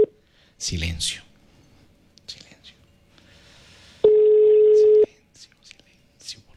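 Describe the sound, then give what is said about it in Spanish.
A telephone ringback tone sounds as a call is dialed from a studio line: one steady, clear tone lasting about a second. Soft whispering and short voice fragments come before and after it, along with a brief louder burst near the start. “Ya tengo listo el número y se fue la llamada.”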